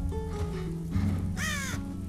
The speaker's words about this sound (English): She looks up a little fearfully at a crow sitting on the branch of a dead tree.